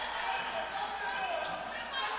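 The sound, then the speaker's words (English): A basketball is dribbled during a women's game, with faint repeated bounces within a steady wash of gym and crowd noise. “Patterson will dribble up near the top.”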